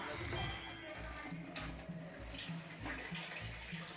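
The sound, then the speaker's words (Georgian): Water runs steadily from a tap, a continuous hiss that stays even for the whole clip with no clear drips. “ეს რა არის? წყალი გაჟდის?”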